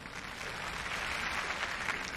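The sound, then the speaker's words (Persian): An audience at a neurology and psychiatry seminar applauds to welcome the keynote speaker, a dense and steady wash of clapping from many hands. “خواهش میکنم با تشویق خودتون سخنران اصلی امسال یعنی دکتر لیلیان بروکس رو تشویق کنید.”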